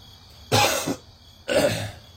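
Two rough bursts of coughing and throat clearing from one person come about a second apart. Each burst lasts under half a second, with quiet between them.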